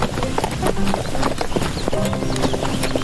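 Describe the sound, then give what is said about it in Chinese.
Horse hooves clip-clop steadily while someone rides, a moderately loud run of many quick, even hoofbeats throughout. “那么美的风景下，骑着马，虽然我不会真正的骑马。但是起码也感受了一下骑马。”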